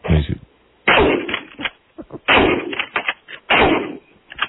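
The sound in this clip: Shotgun blasts from a gun being loaded and fired, a few loud, sharp reports with abrupt onsets, each trailing off briefly before the next, spaced about a second apart.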